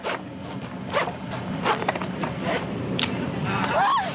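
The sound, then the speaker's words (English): Bone saw cutting open the head of a yellow-edged grouper, with many repeated rasping, scraping strokes in an uneven rhythm over low background noise. A brief squeak rises near the end. “When they're done with that, they reach for the bone saw.”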